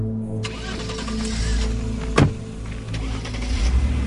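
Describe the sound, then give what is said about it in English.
Engines of several custom vehicles in a caravan pulling away make a steady low rumble. A brief thump sounds midway, and the engine noise grows louder toward the end. “As the custom vehicles pull away”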